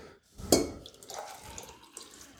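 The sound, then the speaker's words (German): Tea being poured away during a Darjeeling tasting: a short liquid splash near the start, then faint trickling and dripping that fades. “Ich muss das mal hier wegschütten, sonst habe ich zu viel.”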